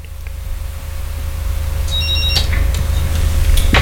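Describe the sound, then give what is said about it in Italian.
A telephone rings with an incoming call: a brief high electronic ring sounds partway through, over a steady low hum that grows slightly louder toward the end. “Perché ormai ecco la chiamata, ecco la chiamata.”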